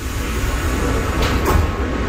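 Subway train doors slide shut on a metro heading north toward Harlem, a brief hissing swoosh rising out of a steady, loud wash of rumbling train noise.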